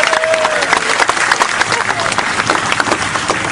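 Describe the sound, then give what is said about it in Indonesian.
An audience applauds with dense, continuous clapping that stays loud and even throughout, a faint voice briefly audible at the start. “Tepuk tangan semuanya untuk Mas Chandra.”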